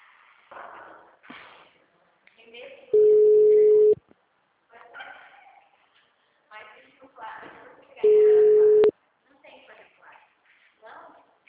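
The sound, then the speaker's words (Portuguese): Telephone busy signal: two steady mid-pitched tone bursts, each about a second long, separated by several seconds of conversation. “número está ocupado”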